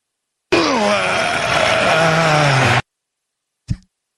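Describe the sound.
A human voice imitates the strain of riding a Peloton exercise bike with one long, loud groan that sinks lower in pitch toward the end. A pause follows, then one short low thump.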